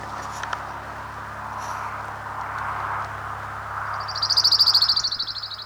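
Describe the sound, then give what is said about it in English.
Orange-crowned warbler song: a high, rapid trill rises out of a steady low background hum near the end and then fades, with a few faint high chirps earlier on. “Orange Crown Warbler number 4.”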